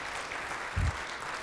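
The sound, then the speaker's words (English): An audience at a church service claps their hands. The clapping is brisk, dense and continuous, at a moderate, even level throughout. “Let's put our hands together and welcome the Lord Jesus Christ.”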